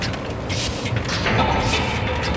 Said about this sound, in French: C'est les grosses, c'est les Heidelberg. Ouais, ouais. Il y a la respiration. Grosse imprimante pneumatique.